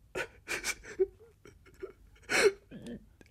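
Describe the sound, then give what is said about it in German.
A man weeping: a few broken, hiccuping sobs and whimpering catches of voice, uneven and halting, with short gaps between them. “Sie weinen ja.”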